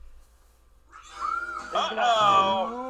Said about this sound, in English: Cat!